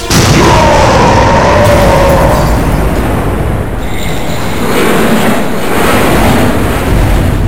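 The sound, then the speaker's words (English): Titanus Zord fires its main cannons, red energy beams blasting across a city: a loud, sustained roaring blast with heavy low rumble that briefly dips midway before surging again. “True to its word, Titanus lines up its main cannons and fires.”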